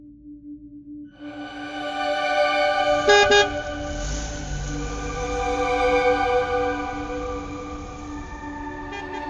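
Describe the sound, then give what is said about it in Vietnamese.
Vehicle horns honking at a busy intercity bus station in Saigon, long sustained toots layered over one another, with a brief sharp blast near the start and a steady low traffic rumble underneath. “Bến xe miền Đông Sài Gòn lúc nào cũng tấp nập các chuyến xe liên tỉnh ra vào.”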